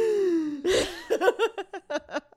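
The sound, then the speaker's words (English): A voice imitates a sharp intake of breath, a short breathy gasp after a drawn-out falling vocal tone. It is followed by several rhythmic, laugh-like voiced bursts. “We talk so long that finally we need a breath and we're like.”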